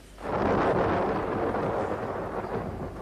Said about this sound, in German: Ein Gewitter. Schnell, kommen Sie zum Fenster.